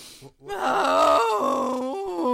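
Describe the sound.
A person gives a loud, drawn-out groaning exhale as a breathing exercise, starting after a brief pause and holding a strained, wavering vocal tone for about two seconds.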